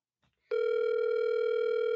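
A telephone call ringing out before going to voicemail produces a steady, loud electronic tone with a buzzy, harmonic edge. It starts abruptly after a brief near-silence and holds unbroken for about one and a half seconds, with no talk.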